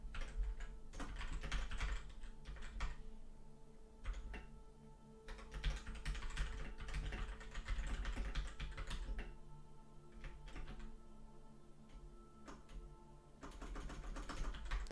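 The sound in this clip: Typing a new poll on a computer keyboard: faint, rapid, irregular bursts of key clicks broken by short pauses, heard alone for the whole stretch.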